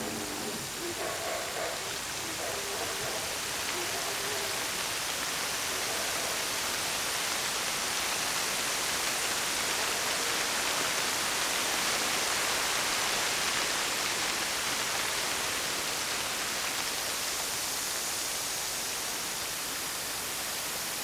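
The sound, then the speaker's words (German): Steady heavy rain pours without pause for the whole stretch, a dense, even hiss with no distinct drops, gusts or other sounds standing out. “Die Erde verdunkelte sich und es begann ein schwarzer Regen. Tagregen, Nachtregen.”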